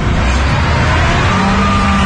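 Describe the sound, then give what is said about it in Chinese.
A new combine harvester, bought this year for 3.7 million yuan, drives into a soybean field with a loud, steady engine roar and broad mechanical rumble throughout. “史文学驾驶着今年花370万元购入的新型收割机开进地头”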